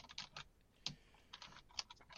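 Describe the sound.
Typing on a computer keyboard: a faint, brief burst of light clicking keystrokes in an irregular rhythm, with a couple of sharper taps standing out and no talk.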